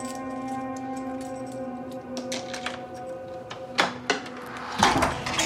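Keys drawn from a handbag and a door being unlocked: a few sharp metallic clicks and rattles come near the end over a steady low tonal hum.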